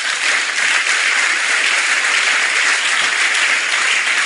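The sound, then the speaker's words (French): An audience at a church sermon applauds with a dense, even wash of clapping. The applause holds at a steady, fairly loud level without pause for the whole stretch. “Bon, acclame avant de voir la suite.”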